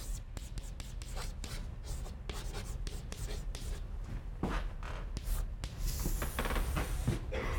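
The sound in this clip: Scratchy strokes of a diagram being drawn during a lecture, many short taps and scrapes in quick, irregular succession over a low, steady background, with no talking.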